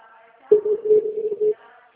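A telephone tone after a dropped call: a single steady low tone lasting about a second, slightly pulsing in loudness, then cutting off, with faint sounds before and after.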